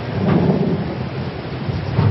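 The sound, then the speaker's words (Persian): A worsening thunderstorm roars with rumbling thunder over heavy rain. The wash of sound is loud, dense and unbroken, with a deep low rumble underneath, and no voices. “طوفان داره بدتر میشه.”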